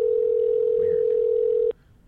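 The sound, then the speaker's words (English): The ringing tone of an outgoing telephone call: a single steady, pure electronic tone holds evenly for under two seconds and then cuts off abruptly, leaving only faint background noise. “Who do we want to call? Should we call you, Dave? Yeah. Oh, it's actually a ring.”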